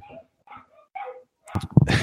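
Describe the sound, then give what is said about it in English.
Dogs barking: a few separate sharp barks, then a louder, denser burst of overlapping barks at the end. “and the dogs go off in the background”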